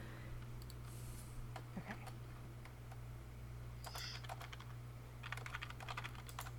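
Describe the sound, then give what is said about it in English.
A computer keyboard being moved gives a few faint, scattered clicks and clatters over a steady low hum. “To move my keyboard.”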